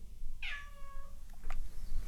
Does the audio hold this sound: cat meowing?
yes